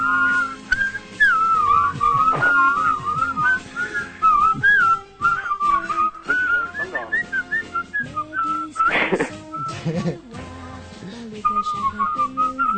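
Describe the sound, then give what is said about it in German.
A group of children whistle a tune together, loud and continuous, the shrill pitch wavering up and down through the melody with only brief breaks. “Weiter pfeifen, Mensch, Kinder!”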